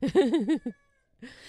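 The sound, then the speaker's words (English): A cat meows: a wavering, drawn-out meow, then a short pause before a second meow begins, moderately loud and alone. “there's the Louis the cat again saying hello.”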